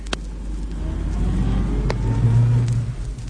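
Car engine as the vehicle drives off: a steady, low rumbling drone throughout that swells a little louder later on, with no voices over it.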